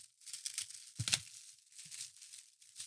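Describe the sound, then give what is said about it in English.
Crinkling and tearing of tinfoil as a double-wrapped present is unwrapped, a steady bright rustle with one sharper, louder rip partway through before the crackling settles back to soft crumpling. “Oh, double wrapping? Yeah, bro. I went all out. It's tinfoil.”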